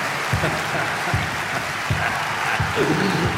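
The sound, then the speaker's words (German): A crowd applauds a winner with sustained, even clapping that lasts over three seconds. A regular low thump pulses beneath it, and faint voices can be heard. “Applaus! Applaus!”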